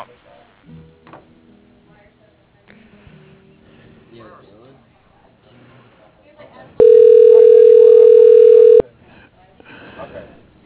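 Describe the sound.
A phone line rings while a call is transferred to an executive's voicemail: one steady, loud, mid-pitched ring tone lasting about two seconds, with people talking quietly before and after it.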